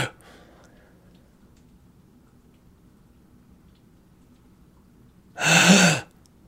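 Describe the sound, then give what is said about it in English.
A voice imitates the agonal breathing of a dying person as a single loud, harsh gasping breath near the end, after a long stretch of near silence. “He was breathing agonally. What's that mean? It's like a, I call it fish breathing when someone's dying, when you're like,”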